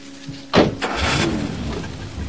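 A car engine starts and the car races off: a sharp burst as it fires, then a steady, sustained engine roar that carries to the end.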